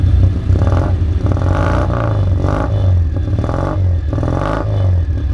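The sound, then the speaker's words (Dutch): A car engine with a different exhaust than a Citroën 2CV gives a heavier, sportier note. The low, throbbing rumble is steady and swells and eases several times, with no talk over it. “Het geluid is iets anders geworden dan de eend vanwege een andere uitlaat. Zij klinkt iets zwaarder.”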